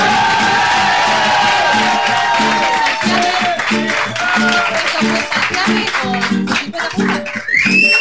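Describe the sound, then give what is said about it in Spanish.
A crowd cheers loudly with whoops, shouts and scattered applause, a busy burst of voices that rises and falls across the stretch, with several high, drawn-out yells standing out. “me quiero ir con el grito y el aplauso más grande del universo”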